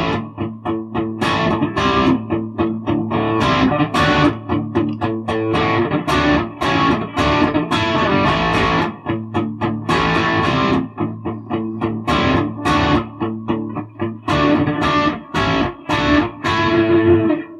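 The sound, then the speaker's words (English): Distorted electric guitar plays an A power chord, struck again and again in a steady, loud, dense riff of many strums with a thick, buzzing overdriven tone and no voices. “And then an A power chord on the 7th of the D and the 9th of the G.”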